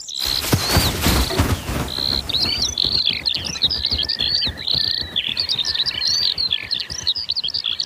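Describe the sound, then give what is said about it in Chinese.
Skylarks chirp over open grassland with short, sparse grass, making many rapid, high twittering calls in a continuous stream. A brief burst of rough noise comes at the start. “这就是云雀。这片草地环境开阔，小草也不是特别茂盛，正适合云雀生活。正是它们发出了叽叽喳喳的叫声。”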